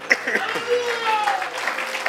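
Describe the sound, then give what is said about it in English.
A church audience claps hands in a continuous, even patter of many overlapping claps, with a voice speaking over it. “Why don't we clap our hands one more time and thank God.”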